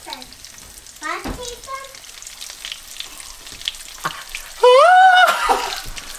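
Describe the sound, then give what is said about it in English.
Food frying in a pan gives a steady crackling sizzle throughout. Brief voices sound over it, and a sudden loud, high-pitched vocal cry comes near the end. “We're gonna fry it.”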